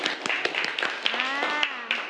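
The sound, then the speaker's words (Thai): A class of students in a singing lesson claps for a classmate, a short patter of scattered claps with a voice heard over them. “โอเคปรบมือให้เพื่อนหน่อยค่ะ”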